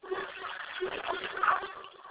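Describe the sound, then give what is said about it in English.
Water runs from a tap as a steady, muffled rushing hiss, faint and unbroken for the whole moment. “Sorry, I have the water on.”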